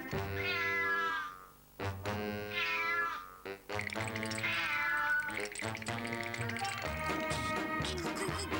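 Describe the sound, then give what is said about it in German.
Drawn-out, cat-like meowing from a cartoon tomcat-penguin: a few loud, tonal meows with wavering pitch, heard alone without talk. “eine neue Art entstand durch ihn. Oggis miauender Katerpinguin.”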